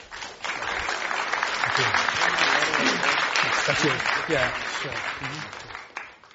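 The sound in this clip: A live audience at the Commonwealth Club in San Francisco applauding as a speaker is welcomed: clapping swells in quickly, stays full and even for several seconds, then tapers off near the end.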